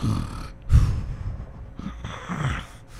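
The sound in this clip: A voice imitates a sleeping person's breathing as sleep deepens until it stops: heavy, snoring-like breaths and one loud snorting gasp, separated by quiet pauses, with no words spoken.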